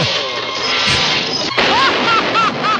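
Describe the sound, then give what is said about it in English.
Loud slapstick bashing as fairy-tale cartoon characters hit each other on the head, a dense crashing clatter with one sharp whack near the middle, followed by a few warbling, bouncing tones. “Yes, yes, yes! No! No, no, no, no, no! They're bashing each other on the head.”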